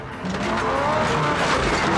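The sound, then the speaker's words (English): A truck engine roars as the truck slides backward despite driving forward. A loud, continuous drone runs throughout, mixed with a skidding squeal. “He starts the engine and drives forward, but the truck keeps sliding back.”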